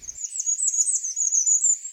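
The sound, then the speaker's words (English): Bay-breasted warbler singing: a thin, very high, continuous warbling song lasting about two seconds, alone against silence. “the intensely lovely bay-breasted warbler, hanging around my neighborhood for the last week, including two that were still singing up the street as I wrote this.”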